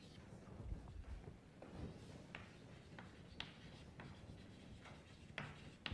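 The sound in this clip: Writing during a mathematics lecture: faint, scratchy strokes with a few sharper taps scattered through, quiet and continuous, with no voices.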